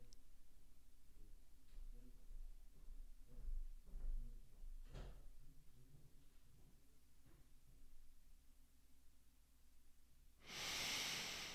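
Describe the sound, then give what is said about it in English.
A person breathing in through the nose and out through the mouth after just waking up, faint and soft at first, with a few quiet breath sounds and a louder, breathy rush of air at the very end. “Nice inhale. Nice exhale. Well done.”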